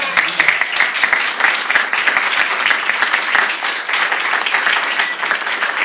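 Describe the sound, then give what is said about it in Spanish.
A crowd claps in dense, continuous applause, loud and steady for about six seconds with no clear break. “un aplauso. ¡Un aplauso!”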